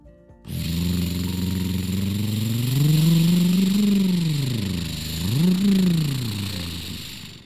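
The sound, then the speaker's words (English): A vehicle engine on a forest fire rescue vehicle starts abruptly and settles into a steady idle. It revs up in a loud rising swell, drops, then surges again in a second shorter rev. “All right, let's fire it up and see how it goes, said Edward.”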